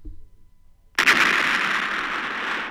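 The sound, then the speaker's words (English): An explosion sound effect, imagined as an apartment blowing up: a sudden loud blast breaks a near-quiet moment, then gives way to a long, dense, sustained roar. “That is literally what I heard inside my head. I had thought the apartment exploded, and I woke up on my couch, and I had to breathe, you know.”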